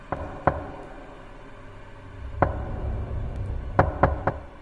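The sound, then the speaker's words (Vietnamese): Knocking on a door at night: a few sharp, dry raps spaced unevenly, with a pair early on and a quick cluster near the end, over a faint low hum. “Và tiếng gõ cửa đều đều ở bên ngoài vẫn cứ dội lại.”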